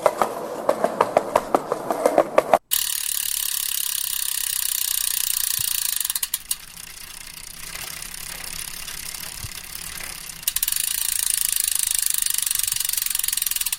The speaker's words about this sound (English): It's freewheeling on a bicycle.